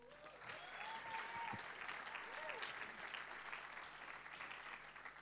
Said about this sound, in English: Please put your hands together and welcome Roddy.